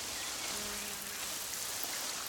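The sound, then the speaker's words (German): Flowers in a garden being watered: a faint, steady splashing hiss of falling water, even and unbroken throughout. “Tante Carla gießt euch jetzt erstmal ordentlich.”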